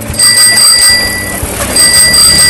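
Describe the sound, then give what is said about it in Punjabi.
A postman's bicycle bell in a village rings in quick metallic trills, coming in two clear bursts of bright, high-pitched ringing over a steady low background rumble. “ਪੁਰਾਣੇ ਸਮੇਂ ਦੀ ਗੱਲ ਕਰੀਏ ਤੇ ਪਿੰਡਾਂ 'ਚ ਬਹੁਤ ਸਾਰੇ ਲੋਕਾਂ ਦੀ ਖੁਸ਼ੀ ਦਾ ਕਾਰਨ ਇੱਕ ਘੰਟੀ ਹੁੰਦੀ ਸੀ।”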